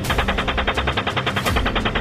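Rapid automatic gunfire from a military helicopter sounds as a steady, evenly spaced stream of many hard cracks. It runs loud and unbroken through the whole clip.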